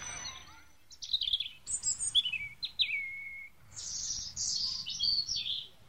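Small caged birds at a zoo chirping in a quick run of high, thin tweets and short trills, many bursts following one another, faint and with no voices.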